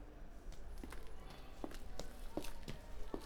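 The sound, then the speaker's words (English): Footsteps walking across a room toward the center of a main chamber: a steady series of soft, evenly spaced steps over a constant background hiss. “As you take your steps towards the center of the room”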